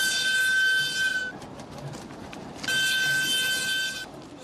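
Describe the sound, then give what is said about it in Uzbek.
A freight train from China arrives in northern Afghanistan with a steady rumble, and a sustained high-pitched whine sounds in two separate stretches. “Xitoydan yuk tashuvchi poyezd 2 hafta yo'l yurib, chorshanba kuni ilk bor Afg'oniston shimoliga, Hayratonga yetib bordi.”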